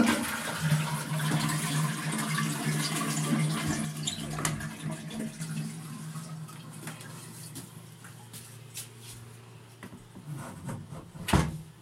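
A toilet flushing, a long, steady rush of water with a low hum underneath that slowly fades, ending with a sharp knock.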